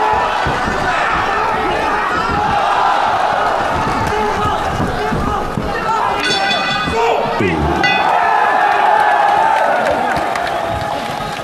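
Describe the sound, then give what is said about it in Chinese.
Arena crowd at a fight cheering and applauding both fighters as the second round begins: a loud, unbroken roar of clapping and shouting voices that stays dense and steady throughout. “第二回合的比赛一开始之后呢，现场的观众朋友们马上就以热烈的掌声欢呼给两位选手加油。”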